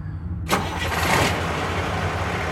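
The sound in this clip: A truck engine starts: silence for about half a second, then a sudden cranking catch, after which the engine settles into a steady, low, rumbling idle.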